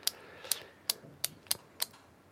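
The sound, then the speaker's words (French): Crisp clicks from an injection pen being pressed with its needle in the skin of the belly: six sharp, fairly evenly spaced clicks, quiet against a low background. “J'enlève le capuchon, je le plante dans la peau du ventre et j'appuie sur le bouton.”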